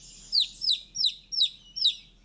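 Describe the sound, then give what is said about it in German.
A small chick calls insistently for its companion with five loud, high-pitched peeps. Each peep sweeps downward in pitch, and they come in an even rhythm with nothing else around them. “Das kleine Küken tut sich jetzt schwer beschweren hier. Das will jetzt unbedingt, dass der Kumpel wieder zurückkommt.”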